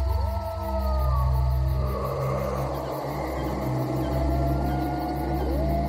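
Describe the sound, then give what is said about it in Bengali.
Howling of a pack of dogs or wolves on a snowy night beside a large tomb as a storm builds: long, wavering cries that rise and fall, layered over a steady low rumbling drone. “সেই কুকুর বা নেকড়ের দল আরো কাছে চলে এসেছে। তারা মহা উল্লাসে চিৎকার করছে।”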